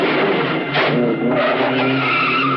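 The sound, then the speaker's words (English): A getaway car skids as the driver locks the brakes, its tires giving a loud, sustained squeal that holds steady for the whole stretch with a rough, grinding edge. “The getaway car reverses past the police car, and the driver locks the brakes. Cranking the wheel hard, he accelerates down a flight of stone steps to the street below.”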